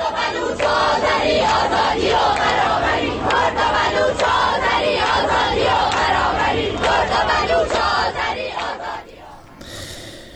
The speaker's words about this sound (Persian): صدای تجمع‌های اعتراضی دانشجویان در چندین دانشگاه ایران را روز دوشنبه می‌شنیدید